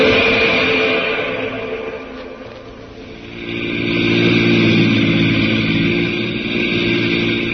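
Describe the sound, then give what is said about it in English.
Engine drone of an army jeep driving over rutted hills in California: a steady mid-pitched roar that sags in the middle, then swells back to full strength. No voices. “Now to an army jeep in the hills of California and Jungle Jim.”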